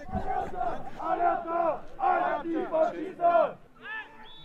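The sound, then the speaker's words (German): Football fans in the stands chant and roar late in a match involving Roter Stern after a foul. Many voices rise in loud, rhythmic bursts of shouted chanting, with short pauses between phrases. “Bei jedem Foul vom Roten Stern werden die auch drüben deutlich lauter als am Anfang, gell? Stimmung steigt.”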